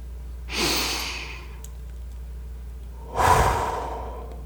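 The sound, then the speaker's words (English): Two slow, deep breaths taken during a calming mindfulness exercise, each a soft airy rush lasting about a second, separated by a long quiet pause. “I'd like to invite you to take a few deep breaths.”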